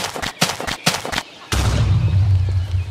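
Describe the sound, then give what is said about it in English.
A creeper exploding in the Minecraft video game: a few sharp bursts give way to a loud, sustained low rumbling blast that carries on to the end. “A creeper! And it's about to explode.”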